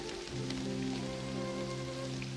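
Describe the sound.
Steady rain falls in a scene with a woman standing by the Statue of Liberty, a continuous dense hiss carrying under sustained low, droning musical tones that hold throughout.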